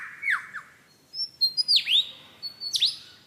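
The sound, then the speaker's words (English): A songbird that copies other species and forest noises imitates a camera shutter. It gives a few bursts of quick, sharp chirps and downward-sweeping whistles, separated by short pauses, alone against a quiet background. “He also, in his attempt to outsing his rivals, incorporates other sounds that he hears in the forest. That was a camera shutter.”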